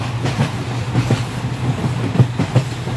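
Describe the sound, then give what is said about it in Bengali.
A train rumbles as it comes to a station, a steady low hum under irregular, rhythmic wheel clacks. No voices are heard. “Train একটা স্টেশনে এসে দাঁড়িয়েছিল।”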